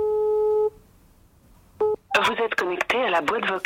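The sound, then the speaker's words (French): Telephone keypad tones from a number being dialed: one sustained dual tone, a pause, then a second short tone, followed by a voice talking. “Moi, j'appelle Michou pour lui dire de venir.”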